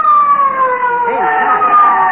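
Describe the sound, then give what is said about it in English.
A police car siren approaches, its wail sweeping up and down in pitch as it rises in loudness over a steady, continuous tonal background. “Hey, a police car. It's coming here.”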